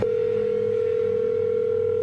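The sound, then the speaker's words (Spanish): A steady telephone dial tone on a single, unchanging pitch, heard while a number is redialled. It holds evenly for about two seconds before cutting off with a brief click. “Vamos a marcarle de nuevo.”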